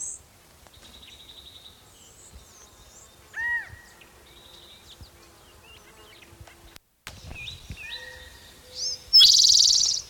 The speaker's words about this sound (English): maybe the calling bird is the mate.